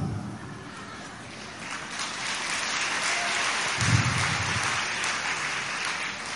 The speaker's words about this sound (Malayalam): ഇപ്പൊ കയ്യടി കണ്ടപ്പോൾ എനിക്ക് മനസ്സിലായി അറിഞ്ഞുകൂടായിരുന്നു